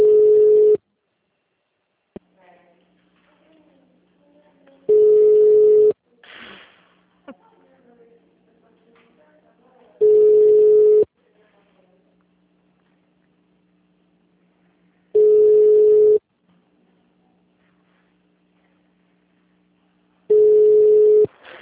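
Telephone tone on a bank line after a dropped call: five steady, mid-pitched beeps, each about a second long, repeating every five seconds, with faint handling noises in between.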